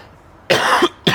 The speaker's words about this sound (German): Das wundert mich jetzt ein bisschen, dass du bei diesem sehr milden Getränk diesen Hustenreiz hast.